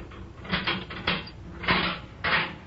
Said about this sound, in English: Here is the professor's cell, comrades. Open it, Captain.